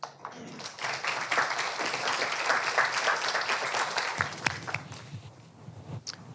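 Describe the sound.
Audience applause welcoming a speaker: dense, even clapping holds for about four seconds, then thins to a few scattered claps and fades out.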